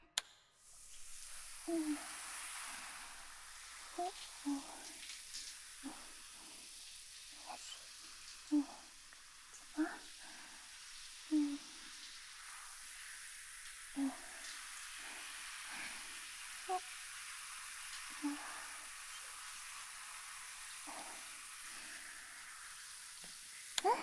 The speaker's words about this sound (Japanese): きれいに洗えました。あとは泡をシャワーで流して、